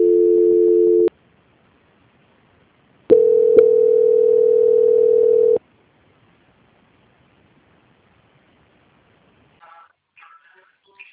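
Telephone line tones during a call transfer to a bank's quality control team: a steady tone of about one second, a pause, then a longer steady tone of roughly two and a half seconds, followed by quiet and a few faint brief sounds.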